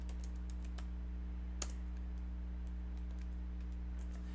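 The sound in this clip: Typing on a computer keyboard: many light, irregular clicks of keys run throughout, fairly faint over a steady low hum, with one sharper keystroke standing out partway through.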